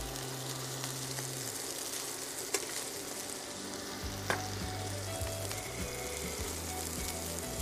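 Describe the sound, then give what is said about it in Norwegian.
Food fries in very hot oil with a steady, dense sizzle and crackle, broken by a few sharp spitting pops, over a low hum. “Det kan sprute litt olje hvis det er veldig varmt, sånn som det er nå, så vær litt forsiktig.”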